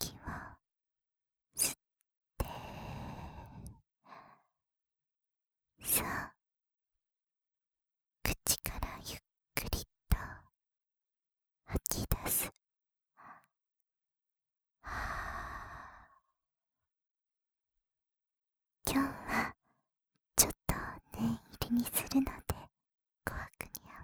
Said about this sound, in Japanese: さあ、深呼吸から、鼻から、